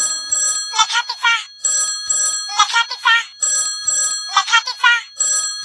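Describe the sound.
A telephone ring tone repeats in steady, evenly spaced bursts within a Marathi song, with singing voices over it.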